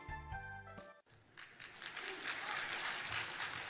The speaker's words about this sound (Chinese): 感谢大家的掌声